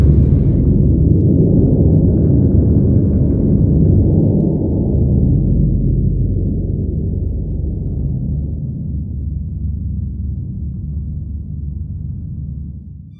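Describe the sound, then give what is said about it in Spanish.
A thunder and earthquake rumble sound effect rolls as a loud, deep, sustained roar that slowly fades over about thirteen seconds, with no voices. “hubo relámpagos, estruendos, truenos, un terremoto y una fuerte granizada.”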